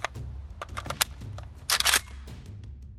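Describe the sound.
A gun being reloaded in a video game: several sharp mechanical clicks and clacks, then a brief, louder metallic rattle, all over a steady low rumble.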